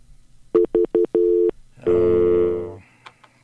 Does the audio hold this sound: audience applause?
no